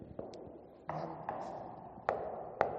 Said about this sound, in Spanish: Aquí es más grave porque está lleno este depósito.